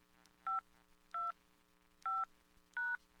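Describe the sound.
Telephone keypad tones as someone dials to check voicemail: four short, clear electronic beeps at a steady pace, each tone a distinct pitch, over a faint low hum with no talking.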